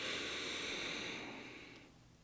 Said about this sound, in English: Inhale.